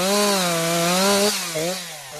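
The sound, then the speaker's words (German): A chainsaw engine running during forestry tree felling, a loud, steady buzzing drone that wavers and dips in pitch a few times toward the end. “greift sich eine Motorsäge und dann geht's los.”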